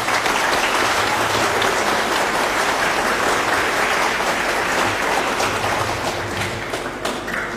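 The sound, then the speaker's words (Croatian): Applause at a school gathering greeting two national-team athletes, a full, continuous wash of many hands clapping that stays loud and even before easing slightly at the end. “Molim vas da ih pozdravite jednim aplauzom.”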